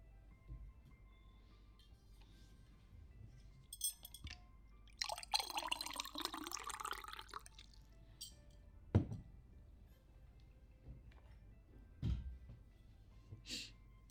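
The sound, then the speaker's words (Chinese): Water poured into a cup, a splashy gush lasting a couple of seconds midway, with a few sharp knocks before and after, otherwise quiet. “学长，你坐一下，我去给你倒杯水啊。”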